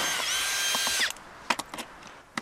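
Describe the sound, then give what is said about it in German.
A power tool whirs loudly for about a second as engineers loosen screws on a broken-down robotic rover. A few small, sharp clicks and taps follow. “Die Ingenieure lösen die Schrauben und suchen den Fehler.”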